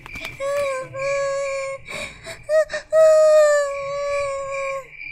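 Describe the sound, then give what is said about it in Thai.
A voice imitates a little injured blue bird crying in pain with several high, wavering, drawn-out wails and short choked sobs between them, loud and alone. “มันได้กระโดดไปข้างหน้าไม่ไหว เพราะว่ามันนั้นเจ็บมาก มันได้เริ่มร้องไห้อีกครั้ง”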